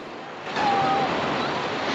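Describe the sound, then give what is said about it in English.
Waves crash over rocks below a cliff, a broad roaring rush of surf that swells sharply after a brief quieter start and then holds at a steady, loud level. “squints upwards as the waves crash over the rocks below him”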